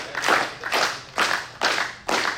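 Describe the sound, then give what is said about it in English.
Hand clapping from people answering a call to clap with both hands at a lively worship gathering: five loud, sharp claps at an even, steady pace. “Has everybody got, can you clap enough? Can you clap two hands? If you ain't got two hands, clap enough.”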